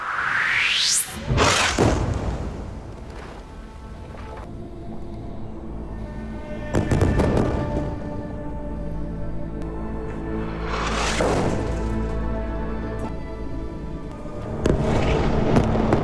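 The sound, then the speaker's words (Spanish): Bombs and shrapnel exploding: a few rushing whooshes, each followed by a heavy boom, separated by a low, restless rumble of distant blasts and crackle, with no voices. “entre sonido de bombas y metralla”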